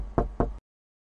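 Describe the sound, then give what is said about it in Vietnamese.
Two sharp knocks on a room door, close together and firm, each with a short decay, followed by silence and no voices. “Anh Đào đang ngồi ở phòng Hoàng Mai thì bất chợt nghe có tiếng gõ cửa”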